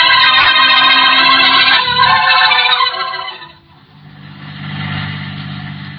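A car driving in the country gives a dense, loud mechanical drone that dips away past the midpoint, then returns as a lower, steady motor hum.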